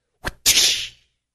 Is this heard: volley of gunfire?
no

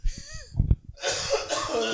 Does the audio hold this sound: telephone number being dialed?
no

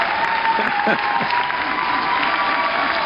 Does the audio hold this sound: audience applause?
yes

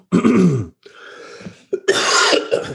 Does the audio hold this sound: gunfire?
no

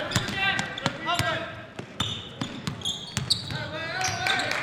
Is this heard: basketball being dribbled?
yes

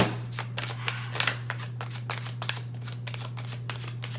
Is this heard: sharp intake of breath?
no

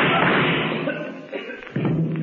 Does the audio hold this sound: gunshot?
yes

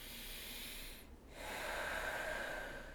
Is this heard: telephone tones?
no

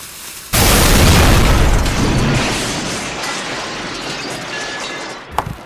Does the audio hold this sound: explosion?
yes

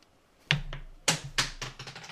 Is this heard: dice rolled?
yes

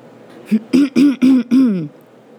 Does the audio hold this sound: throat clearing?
yes

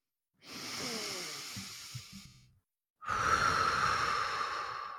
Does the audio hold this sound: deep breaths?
yes

